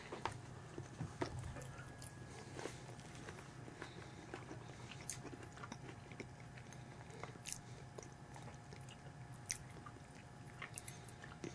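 Soft, wet chewing of dates eaten with chocolate: many small bites and squishy mastication sounds repeat steadily at low volume, with no talking.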